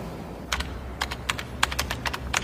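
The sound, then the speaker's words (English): Fingers type on a computer keyboard, with quick irregular clicks and clacks in short bunches over a low background hum. “Jimmy tried to type. I love that beat with Jimmy.”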